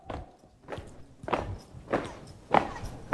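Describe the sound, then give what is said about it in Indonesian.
Heavy marching footsteps of a flag-raising troop at the gate of a regent's official residence: a steady, evenly spaced series of dull thuds, each step landing firmly and alone with no talk. “Gerbang rumah jabatan bupati ini derap langkah dari paskibraka.”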